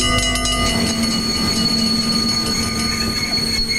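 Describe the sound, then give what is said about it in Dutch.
An intercity train arriving at Deventer station gives a loud, continuous rumble layered with sustained high-pitched wheel squeal, a deep low hum present only in the opening moment. “Beste reizigers, de Intercity nadert station Deventer.”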